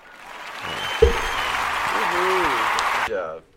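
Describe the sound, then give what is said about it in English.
An audience applauds, a broad burst of clapping that rises after a sharp thump, holds steady for about two seconds with a voice speaking over it, then cuts off. “Let's give Justin a round of applause for that one.”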